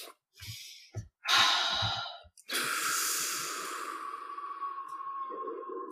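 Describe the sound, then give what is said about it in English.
Deep breaths are taken during a relaxation exercise: a few short, airy breaths, then a long, loud, steady exhale that fades slowly, with no talking. “So take a few deep breaths, everyone.”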